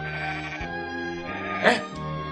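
Sheep bleating as shepherds watch their flock at night near Bethlehem: a sustained, wavering nasal bleat with rich harmonics, briefly broken and then resumed, heard alone.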